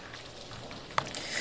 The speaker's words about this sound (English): we're seeing more of that rainfall now